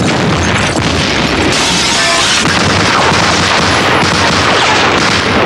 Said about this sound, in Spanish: Los del campanario intensifican el fuego.